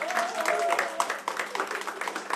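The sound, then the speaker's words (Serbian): Audience applause at a tavern-style music evening after the performers are introduced, a patter of many claps running steadily while a voice talks over it. “jedan veliki aplauz, molim vas.”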